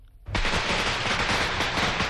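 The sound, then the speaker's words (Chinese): A string of firecrackers breaks into a dense, unbroken crackle after a brief quieter moment. Rapid loud pops pile on one another and run at full strength right to the end. “江广秀扔出一挂鞭炮，鞭炮声中”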